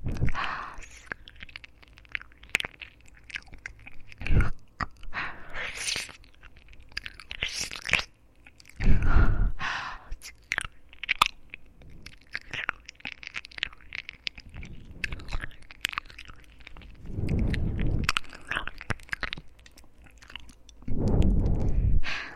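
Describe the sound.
Chewing and eating: a continuous series of wet, squishy bites and crunches, varying in loudness, with several sharper crunch bursts and no speech.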